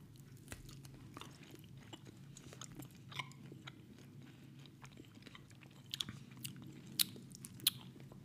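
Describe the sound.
Someone bites and chews a hard, dried, fish-like snack, making faint, crisp crunching and many small clicking bites over a quiet background, with a few sharper crunches near the end.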